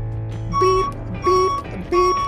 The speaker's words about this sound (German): Piep, piep. Ganz langsam und entspannt fährt die Karre rückwärts.